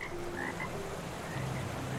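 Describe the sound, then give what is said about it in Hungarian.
Frog croaking steadily, with many low, rough calls that overlap and continue without pause for the whole stretch, with no other sounds. “Ekkor meghallotta a közelben vartyogó béka hangját.”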